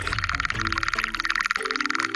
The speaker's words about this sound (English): The sounds we're listening to were recorded underwater in a pond in upstate New York.